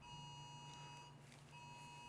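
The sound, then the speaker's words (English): A phone sounds an emergency alert for a tornado warning in New Jersey. The steady, high electronic tone is faint and layered, breaks off briefly near the middle, then resumes. “That's my phone. That's my phone. You were talking? Sorry, tornado warning, which is not really a warning because this is New Jersey.”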